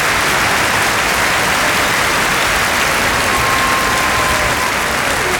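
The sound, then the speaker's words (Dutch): Loud, dense audience applause fills the whole stretch as a steady, unbroken roar of many hands clapping, with no pauses or voices standing out. “Geef ze nog een enorm applaus, dames en heren. Bravo.”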